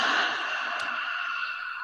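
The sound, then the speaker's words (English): A slow, deep exhale through the mouth during a guided calming breathing exercise: one steady, airy hiss of breath lasting about two seconds, easing off slightly toward the end, with no talk over it. “take a slow, deep breath in through your nose. And then hold it. And now exhale out your mouth.”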